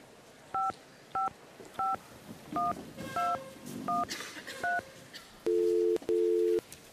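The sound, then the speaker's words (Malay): Telephone keypad dialing: seven evenly spaced dual-tone beeps over low background noise, then two longer, lower, louder ringing tones as the call connects. “Call Dahlia lah.”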